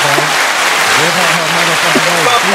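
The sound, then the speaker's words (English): Applause fills the whole stretch, many hands clapping in a dense, steady wash of sharp claps, with a voice talking over it throughout. “That's what we gonna do. We gonna clap it up.”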